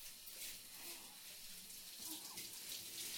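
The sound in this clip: Shower water runs in a steady, continuous hiss while rinsing a person's body, holding a fairly even level throughout with no talking.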